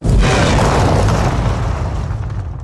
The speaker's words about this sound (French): C'est le 3 millième missile tiré sur l'Ukraine depuis le 24 février.